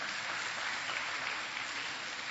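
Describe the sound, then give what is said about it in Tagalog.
Applause for God during a church service, a steady dense wash of clapping that holds at an even level throughout, with no voices standing out. “Palakpakan natin ang Diyos na buhay.”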